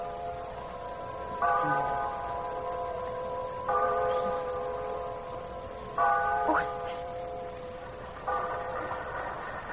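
A bell rings out on a hill, tolling four times at a slow, even pace, each strike leaving a sustained, humming tone that fades before the next.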